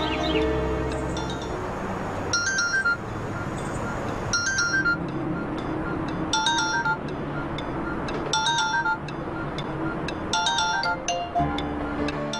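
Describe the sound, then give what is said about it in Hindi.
Mobile phone ringing with a chirpy, bird-like electronic ringtone. The melody repeats in regular bursts about every two seconds over constant background noise. “तुम्हारा mobile वहाँ बज रहा है, चिल्ला रहा है, जाओ जाकर उठाओ उसे।”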